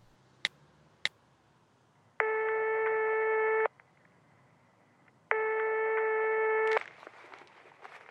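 An outgoing telephone call rings twice, each a steady buzzing tone of about a second and a half with a long silent gap between. Two sharp clicks come first, and faint rustling noises follow the second ring.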